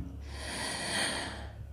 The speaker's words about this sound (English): Breathe. In.